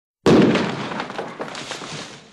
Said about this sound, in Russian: Нападающим, наконец, удалось отломать доску. Они забросили в помещение слезоточивую бомбу через образовавшийся зазор.